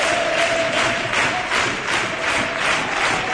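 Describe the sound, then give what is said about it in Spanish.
Football crowd roars at the Nuevo Arcángel stadium during a match between Huelva and Córdoba. The broad, continuous crowd noise swells and pulses in rhythmic surges. “Anima al público de Huelva en el nuevo Arcángel.”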